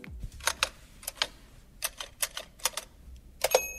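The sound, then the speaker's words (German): Keys striking on a Williams No. 2 typewriter from 1895: many crisp mechanical clacks in irregular clusters, separated by brief pauses, fairly faint and with no voices. “Das war jetzt zum Beispiel das Tippgeräusch der Williams Nummer 2 von 1895.”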